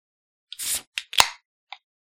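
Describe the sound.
Sharp cracks and a short hiss as an iced tea lemonade drink is cracked open: a brief fizzing burst, then a few separate clicks, with no talk.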